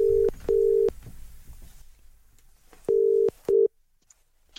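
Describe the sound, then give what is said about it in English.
A telephone number is dialled on a keypad: four short electronic tones, two in quick succession, a pause, then two more, over faint background noise. “Ring anyone you like. Okay. Dialing a number now.”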